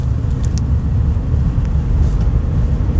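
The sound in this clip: Steady low rumble from a car being driven, with rear axle noise running continuously underneath; the droning hum stays even and fairly loud throughout without distinct separate knocks.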